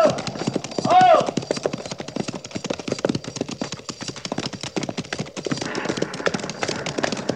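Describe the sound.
Horses' hooves clip-clopping as a military patrol's riders set off, a dense, steady run of many sharp hoofbeats that carries on throughout at an even, moderately loud level.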